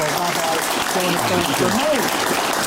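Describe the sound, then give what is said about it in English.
Audience applause: dense, steady clapping that holds at an even level throughout, with a voice speaking over it. “Big round of applause, please, for Alex Hearn.”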